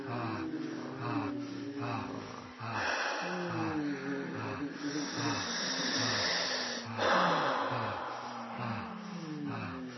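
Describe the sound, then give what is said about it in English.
Invented, playful breathing noises: a steady stream of wheezes, gasps and snorting breaths over ten seconds. They sound fairly faint and loosely rhythmic, as if made up freely rather than breathed naturally. “Make interesting noises, breathing noises. What's the most enjoyable breath? Just invent it for yourself.”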